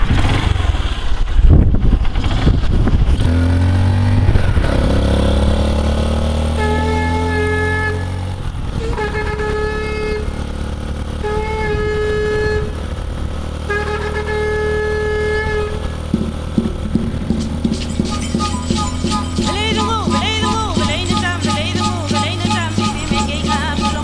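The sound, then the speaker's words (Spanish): A vehicle engine runs as a trip to a land-recovery site gets under way, holding a steady low drone throughout, with tonal sounds layered over it in the middle and a brighter, busier texture near the end. “Vamos, vamos, arrancamos, ya está listo el motor.”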